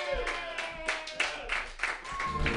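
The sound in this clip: An open mic comedy audience claps and cheers for the next comedian, with uneven bursts of hand claps rising and falling and voices mixed in.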